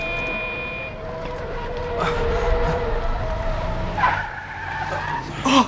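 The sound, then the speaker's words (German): A car skids on a street in a children's audio drama, its tires squealing in a few screeching bursts over engine noise. A sharp, louder burst comes right at the end. “Vorsicht, das Auto!”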